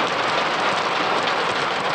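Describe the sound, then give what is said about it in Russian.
Heavy rain pouring down on tractors, a dense, even hiss that continues steadily throughout without distinct drops or voices. “Дождь поливает тракторы.”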